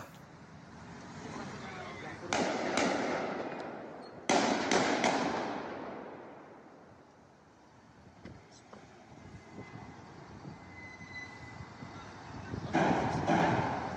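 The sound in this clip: Gunshots from a long gun come as a few clusters of sharp, loud cracks separated by quieter stretches, with a man's voice heard among them.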